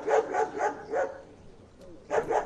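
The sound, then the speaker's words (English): Police sniffer dogs bark during vehicle searches outside a stadium in Brasília before a presidential inauguration. A quick run of moderately loud barks is followed by a short pause and then another burst of barking. “Sniffer dogs and police searched vehicles in Brasilia of those who showed up at the stadium”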